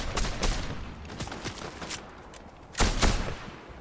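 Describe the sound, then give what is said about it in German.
Gunfire in a squad shooter video game: sharp, clicky shots in irregular bursts, with a louder cluster of reports near the end. “Auf mich wird geschossen.”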